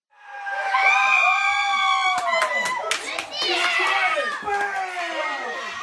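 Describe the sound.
Friends and family cheer in a living room as the Cubs win the World Series, with high excited shrieks and yells followed by scattered clapping and continued cheering.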